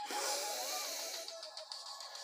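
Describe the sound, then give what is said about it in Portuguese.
A deep breath drawn in through the nose during a guided breathing exercise: a steady, airy hiss that runs unbroken for about two seconds and fades slightly toward the end. “Inspira pelo nariz, vai.”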